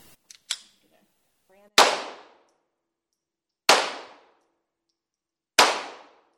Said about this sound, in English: This is what it sounds like at the shooting range inside Davenport Guns on Mississippi Avenue